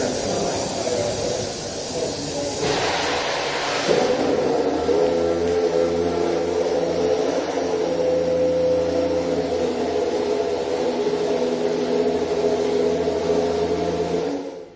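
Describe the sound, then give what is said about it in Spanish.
A McLaren Honda racing car engine starts up in preseason: a whirring hiss, then the engine catches into a steady, strongly tonal idle drone that holds until the end. “como sé que os gusta mucho el sonido del arranque del McLaren Honda, vamos a escucharlo de nuevo”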